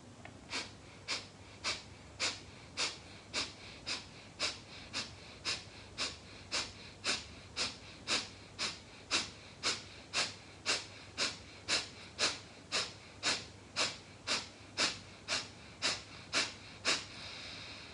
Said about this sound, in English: So together, 35 breaths or normal breaths.